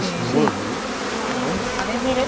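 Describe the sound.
Bees buzz around a hive frame as a young bee emerges from its cell, a loud, continuous droning hum with wavering tones that rise and dip throughout, with no voices.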